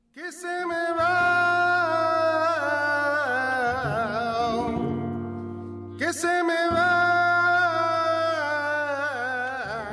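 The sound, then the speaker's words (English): Tangos de Granada flamenco music performed at the American Spanish Dance and Music Festival, full and sustained with steady low notes under bright melodic lines, briefly thinning out before swelling back in. “What you're hearing right now is the music of Tangos de Granada, a performance featured at the American Spanish Dance and Music Festival last weekend.”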